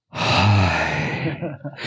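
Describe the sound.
A long, heavy breath blown straight into a microphone, a loud sigh-like exhale with a faint voiced hum that lasts over a second, then breaks into a few softer, uneven puffs.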